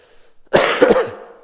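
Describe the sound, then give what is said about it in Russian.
A harsh, throaty human cough, brief and loud, bursts out alone against near silence, with a rough second push right after the first. “Вы меня простите, я кашлять, наверное, буду больше, чем Александр.”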